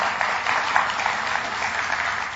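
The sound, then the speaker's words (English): Round of applause from a church audience honoring a speaker's mother and grandmother, a muffled, steady hiss of clapping hands at moderate loudness that runs evenly throughout without any talk. “So just to honor them, maybe a round of applause.”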